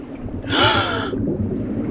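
A person's deep breath in, one sharp, breathy inhale lasting about half a second, rising out of a quiet background and ending abruptly, with no talk.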